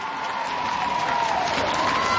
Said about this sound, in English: The crowd here at Moorabbin haven't had much to cheer about today, but that is certainly something for those who have stuck here.